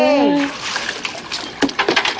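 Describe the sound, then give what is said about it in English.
Ice and water are poured over a person during an ice challenge. A brief voice comes first, then a broad rushing splash with several sharp clattering hits toward the end. “Pour some ice on me.”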